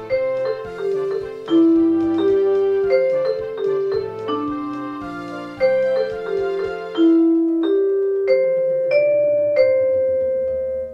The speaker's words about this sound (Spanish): Me limité a una escala pentáfona en un tema muy breve que suena así.